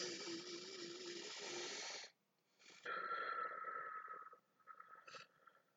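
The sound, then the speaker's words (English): Slow, drawn-out breathing from a counted relaxation exercise: long, airy breaths with a brief pause between them, fairly loud and alone, with no talking. “So you count every other breath up to 4, and you expand the amount of time you inhale and exhale each time.”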